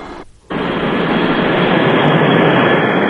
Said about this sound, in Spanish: Luego el avión despega abandonando la ciudad de Fez.